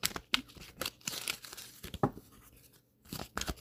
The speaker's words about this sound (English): Now, this is a message for the both of you. I'm going to pull a card.